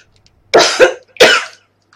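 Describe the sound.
A short cluster of dry coughs brought on by a tickle in the throat, with a double-peaked first burst followed by a second harsher burst, fairly loud against silence.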